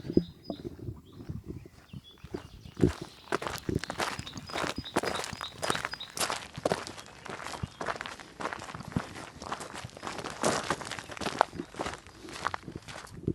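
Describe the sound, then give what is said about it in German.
Footsteps walking on a wide gravel path, a steady run of many crunching steps with an even walking rhythm, moderately loud and with no talk over them. “Jetzt sind wir hier wieder auf einem größeren Weg. Schotter. Ja. Man hört es jetzt, glaube ich, auch an den Füßen.”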